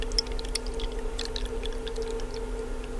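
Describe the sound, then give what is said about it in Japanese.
Hot water pours from a ceramic vessel into a teapot holding tea leaves, a steady soft splashing stream with faint bright droplet sounds that runs the whole time without a break. “ちょっとなんかいいですね、この注ぐ音もね。なんか少しだけ聞いていただきましたけど”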